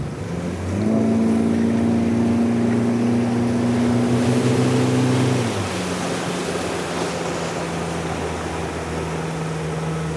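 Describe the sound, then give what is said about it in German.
A motorboat engine drones steadily as the boat heads into a lake canal. Partway through, its humming tone drops lower and softer, then carries on as a lower drone over water noise. “Ja, wir fahren jetzt mal Richtung Seekanal rein.”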